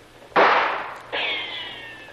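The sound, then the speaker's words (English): Gunshots from guards on a beach firing at men pinned down: a sharp crack with a decaying tail, then a second report carrying a ringing tone as it fades. “Boy, they're not bad shots. Almost feel the breeze from that one.”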